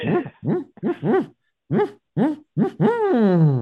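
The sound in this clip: A voice imitates a barred owl's call: two phrases of short rising-and-falling hoots, the last drawn out into a long, falling hoot, with a pause between the phrases.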